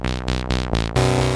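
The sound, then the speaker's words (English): Commodore 64 sound chip music from the Aliens video game: buzzy synthesized tones pulse in four short repeated notes, then shift to a louder sustained chord. “There's that cool C64 sound chip again. Yeah, this is the Aliens, not the Alien from 1984.”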